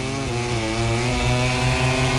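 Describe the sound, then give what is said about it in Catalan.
Loud engine whine from Aprilia and Gas Gas racing motorcycles braking into a corner on a circuit, a sustained buzzing tone with dense harmonics holding fairly steady from start to finish, without voices. “L'Aprilia contra l'Agas Gas. No és una Ducati. Ara arriben a la frenada de la 11.”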